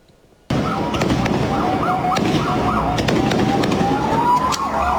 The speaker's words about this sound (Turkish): ateşledikleri havai fişeklerle ortalığı birbirine kattı